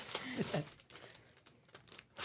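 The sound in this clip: Paper crinkling and tearing as a gift box holding nail clippers is unwrapped, a continuous run of rustles and rips with short louder bursts and a voice heard briefly early on.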